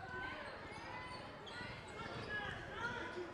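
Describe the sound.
A basketball is dribbled during a game, with many soft, rhythmic thumps running evenly under crowd murmur and voices.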